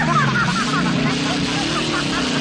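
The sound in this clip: A car engine revs loudly as the car reverses, giving a steady, wavering drone that continues throughout.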